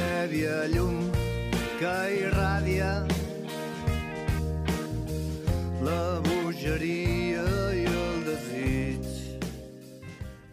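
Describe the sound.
A folk rock band's song with a lead voice singing in Catalan over a full backing of bass, drums and melodic instruments, steady and driving at an even volume throughout.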